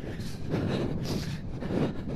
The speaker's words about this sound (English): Oh, no, now into the wind again.